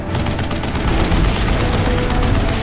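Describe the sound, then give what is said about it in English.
A fighter aircraft explodes into a fireball: a loud, dense, continuous roar with crackling, gunfire-like bursts running through the whole stretch, and no voices. “Emma Shaw banked to port and away from the fireball and burning debris of the third Eden fighter.”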